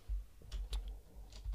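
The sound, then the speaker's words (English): Typing on a computer keyboard to enter a search: a few soft, quick key clicks in an uneven rhythm, faint and with no voices. “If we just type in Adobe Flash”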